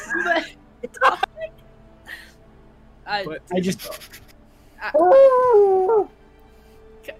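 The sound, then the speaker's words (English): A person imitates a dog growling at a stack of papers, producing a drawn-out voiced growl of about a second with a slightly falling, whine-like tone, after scattered bits of talk and mouth noises. “I begin growling at the papers, just like that. But in dog.”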